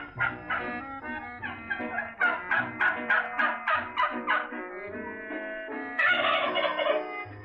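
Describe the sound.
A turkey gobbles in a string of loud, rapid, warbling bursts, each a rattling pulse of nasal calls, repeating over several seconds with short gaps and a final, denser outburst, alone without speech.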